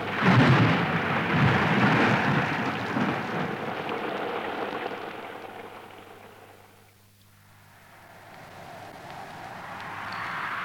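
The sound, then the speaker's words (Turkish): Heavy rain pounding steadily with a low rumble of thunder beneath it, loud at first, easing to a brief lull, then swelling again. “Yağmur hızlandı. Epeyce ıslanacağız herhalde.”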